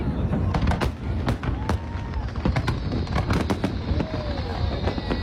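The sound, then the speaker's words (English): Shells explode in a huge fireworks show launched from many sites around Washington, D.C., a dense, loud barrage of overlapping bangs and crackles that blur into a continuous rumble. “the crowds were treated to what was billed as the biggest fireworks show ever, with some 850,000 shells being blasted from 10 locations all around Washington, D.C.”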